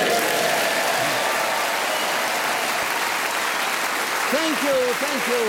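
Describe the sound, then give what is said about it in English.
A theatre audience applauds at the close of a panel game show, sustained dense clapping holding an even level throughout, with a voice briefly rising above it near the end. “we're grateful to this lovely audience here in Hastings at the White Rock Theatre, who cheered us on our way of magnificence.”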